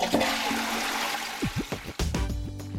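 A toilet flushes with a steady rush of water that fills the whole stretch, followed by gurgling swirls as the bowl drains toward the end.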